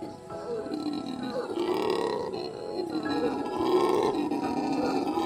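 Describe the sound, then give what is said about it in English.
A howler monkey roars in the jungle at Manuel Antonio, a deep, guttural, continuous roaring that swells and eases in long waves and stays loud throughout. “we delve deeper into the jungle to meet one of Manuel Antonio's loudest residents, the howler monkey.”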